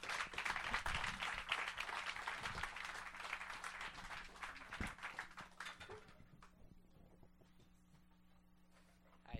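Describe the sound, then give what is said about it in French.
Audience applause at a stand-up monologue evening as the performers take the stage. Fairly quiet clapping from many hands lasts about six seconds, then dies away and leaves a low, steady hum. “Applaudissez, mesdames, messieurs.”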